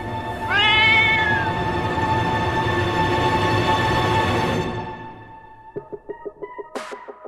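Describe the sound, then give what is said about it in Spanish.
A large black cat gives one drawn-out meow that rises in pitch, loud and alone over a thick, noisy backdrop, which later drops away to a run of regular short pulses. “A la distancia, alcanzás a ver una gran gata negra que se te acerca paso a paso.”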